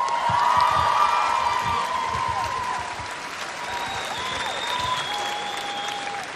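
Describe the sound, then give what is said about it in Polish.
Applause from a huge outdoor festival crowd on a city square in Gdynia at a summer radio event: dense, continuous clapping with some cheering mixed in, steady throughout and easing slightly toward the end. “Wielkie brawa dla państwa.”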